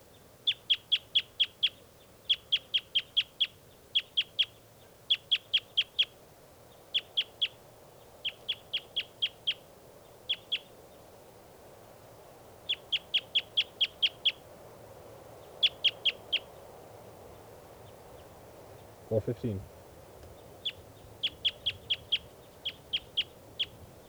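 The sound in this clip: Bird calls ring out as many short, high chirps in quick bursts of three to six. The groups repeat steadily over a faint low background hum.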